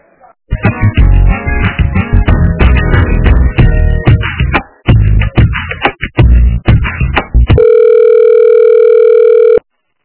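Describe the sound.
Telephone line sounds while a call is transferred to a busy extension: several seconds of tonal hold music, then a steady unbroken electronic tone that holds for about two seconds before cutting off abruptly.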